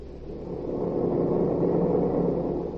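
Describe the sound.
Aircraft engines in flight as a radio drama effect: a steady, droning low roar that swells slightly at first and then holds constant, with no talking.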